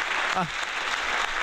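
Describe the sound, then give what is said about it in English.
Audience applause for game contestants: a dense, even patter of clapping fills the whole short stretch, with a brief voice breaking through near the start. “let's give all of our contestants a big round of applause”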